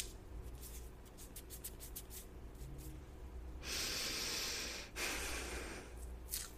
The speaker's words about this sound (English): so putting the mouth tape on.